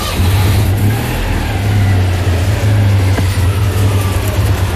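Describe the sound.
A car engine runs as the car is driven, giving a loud, steady hum with a low droning tone that holds an even level throughout, without clear revving.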